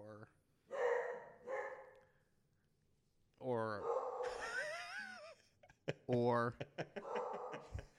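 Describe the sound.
A house dog barks and yelps a few times in the background while people talk, with sharp, whining cries between stretches of conversation.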